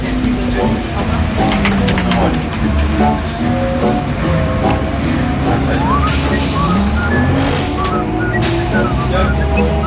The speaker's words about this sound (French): Voilà, on arrive à Rungis, à la gare routière. Tout à fait. C'est le terminus.